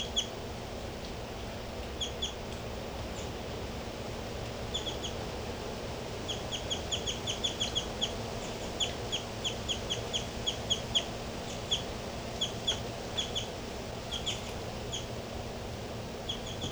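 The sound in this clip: A bird gives short, high chirps in scattered bursts, faint over a steady background hiss and low hum.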